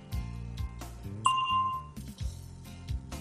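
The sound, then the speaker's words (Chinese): A single bell ding signals time to answer in a language-practice drill. The clear, ringing tone sustains for about half a second over a steady musical background. “请在听到铃声以后回答。”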